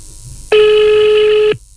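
A telephone rings during a call as a single steady electronic tone, buzzy and mid-pitched, lasting about a second before cutting off abruptly.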